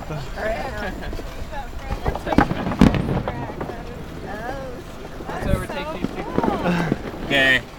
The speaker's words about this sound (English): Fireworks. Yeah, seriously.